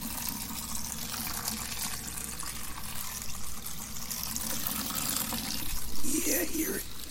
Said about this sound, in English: Now, hear the filling of this pot.